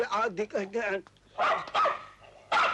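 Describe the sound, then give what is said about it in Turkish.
A dog barks in a few bursts during a civil wedding ceremony, the sharp barks mixed with people talking. “Şu köpeği be!”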